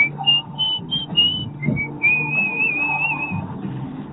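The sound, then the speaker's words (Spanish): Whistled song intro, a clear melody of quick short notes that settles into a longer held note, bright and fairly loud. “Le metió silbido y todo, ¿Qué tal?”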